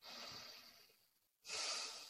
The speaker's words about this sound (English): And what was the first thing you just did? Breathe, relax.